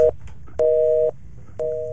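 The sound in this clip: Telephone busy signal heard after a phone is hung up: a steady two-tone beep pulsing on and off in even half-second bursts, with a clipped burst at the start and another cut off at the end.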